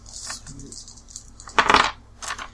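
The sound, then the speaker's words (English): Dice clatter as they are rolled for a survival check in a Chronicles of Darkness tabletop role-playing game: a loud burst of rattling, then a shorter second rattle after a brief pause. “Make a roll for survival.”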